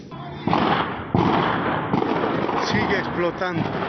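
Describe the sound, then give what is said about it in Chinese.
Explosions at a fireworks storage area in Bolivia: several heavy, booming blasts in quick succession with a continuous rumbling roar between them, and people's voices audible toward the end. “另一角度在阳台拍摄的视频显示，现场一连响起10余声爆炸声。”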